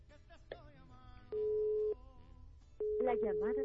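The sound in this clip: Telephone ringback tones after a number is redialed: two long, steady, mid-pitched tones on the line, separated by a short gap, with speech heard before the first and over the second.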